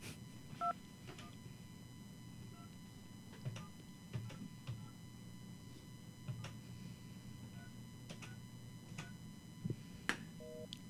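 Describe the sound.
Telephone keypad dialing tones, faint and sparse: a few short, steady beeps at irregular intervals, mixed with sharp button clicks over a low continuous hum.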